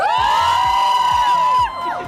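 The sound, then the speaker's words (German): A front-row crowd at an outdoor concert on a sunny square screams and cheers. Many voices merge into a loud, sustained, high-pitched shriek that drops off sharply just before the end. “Erste Reihe, schreit mal.”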